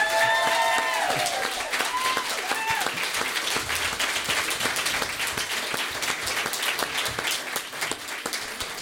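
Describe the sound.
Audience applause welcoming a speaker onto a stage: loud, sustained clapping from a large crowd, with a few cheering voices in the opening seconds and a slight easing toward the end.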